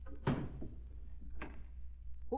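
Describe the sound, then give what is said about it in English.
A door is closed and locked with a key: a soft, dull thud is followed by a fainter click and a slight rattle, all quiet with no voices. “Here's the key. Lock the door behind us.”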